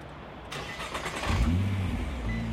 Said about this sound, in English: Even when you start it, you hear that little bit of clank in the transaxle.